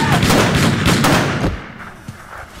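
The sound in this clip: Gunfire from weapons in a comedy sketch: a dense, loud volley of rapid shots lasting about a second and a half, then fading away.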